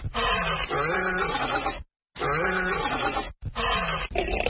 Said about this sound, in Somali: markii uu ku dhuftay cidda libaaxu caanka ku yahay waxaan in badan daymooday xaggayga dambe